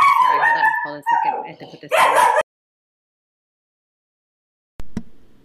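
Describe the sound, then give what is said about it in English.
A few short, sharp dog barks come through mixed with a person talking, followed by silence and one brief faint noise near the end. “so there was a little barking”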